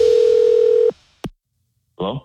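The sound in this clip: A telephone line tone for a radio prank call: a steady, loud held tone lasting about a second cuts off, a sharp single click follows, then a brief voice speaks.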